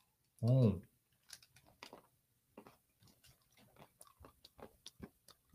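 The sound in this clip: Salted nuts being chewed: a short voiced sound opens, then many crisp crunching clicks follow in an uneven rhythm, faint and close.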